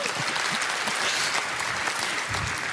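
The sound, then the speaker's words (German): Audience applause at a political Ash Wednesday satire event in Berlin, an even wash of many hands clapping at moderate volume that holds steady throughout. “Ich kann auch dieses, also die Sache mit dem Applaus ist sowieso sehr schön.”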